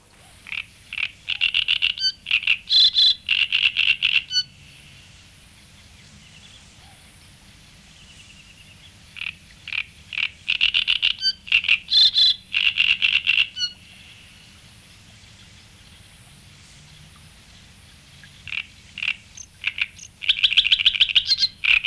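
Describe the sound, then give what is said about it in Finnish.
Great reed warbler song: loud, harsh, croaking phrases of repeated grating notes, delivered in three long bouts with quiet pauses between them and no voices. “Rastaskerttunen.”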